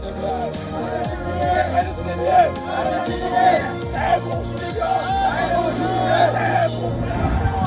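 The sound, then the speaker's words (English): Protesters outside the White House chant slogans against the visiting Chinese president in a loud rhythmic crowd chant, the phrases repeating steadily over continuous crowd noise. “Protesters gathered outside the White House as U.S. first couple welcomed Chinese President Xi Jinping and his wife for dinner. They chanted slogans including "Xi Jinping is not welcome" and "Free Hong Kong."”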